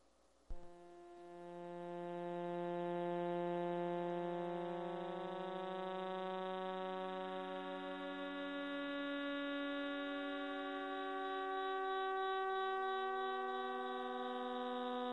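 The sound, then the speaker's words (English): Sonified signals of millisecond pulsars in 47 Tucanae: a rich, droning chord of sustained tones that begins abruptly after a sharp onset and holds steady, swelling slightly, with some pitches slowly shifting. “the 16 recorded millisecond pulsars in 47 Tuck are making this sound right now.”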